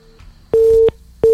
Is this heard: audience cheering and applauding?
no